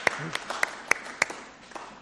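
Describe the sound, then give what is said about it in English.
A small group gives a little round of applause: a handful of distinct, irregularly spaced claps, fairly soft and sparse rather than a full ovation. “I think we'll do a little round of applause.”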